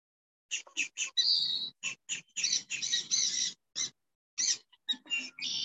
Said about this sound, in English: The birds will help.